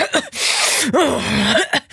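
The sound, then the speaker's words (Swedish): A voice imitates a neighbour sniffling and coughing, a man of about 52 heard in a stairwell entrance. Raspy, strained sniffs and throaty, voiced coughs come in a few rough bursts. “för han snörvlar och hostar”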